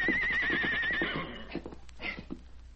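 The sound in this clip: A colt lets out a high, wavering whinny lasting about a second as a rider tries to mount it, followed by quieter snorts and a few shuffling thuds.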